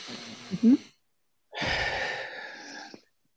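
One long, deep breath, airy and breathy, lasting about a second and a half and taken during a hand-tapping exercise, after a brief faint sound and a pause.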